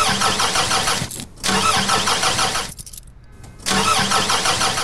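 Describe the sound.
A car engine cranks over and over without catching, three long rough bursts of starter churning with brief pauses between them. The steady, pulsing grind is loud and stays level, with no sign of the engine firing.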